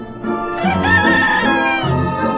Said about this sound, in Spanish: y se encontraron con una granja, y en la granja una valla, y en la valla el gallo.